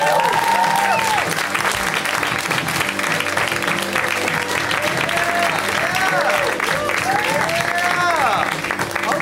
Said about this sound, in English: please welcome our final comic for the night. Let's hear it right now for Neil Nanda. Give it up.